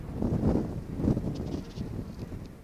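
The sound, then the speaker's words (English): Wind blowing on a hilltop, buffeting the microphone in low, rumbling gusts that swell and ease unevenly throughout, with no talking. “I hope you can hear me against the wind.”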